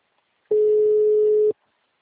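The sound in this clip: Telephone call tone while a number is dialed: a single steady beep lasting about a second at a constant pitch, clear and alone against silence.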